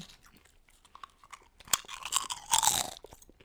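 Chewing crunchy stacked potato chips, with a steady run of crisp, crackling bites that grow louder and denser toward the end, heard alone without talk.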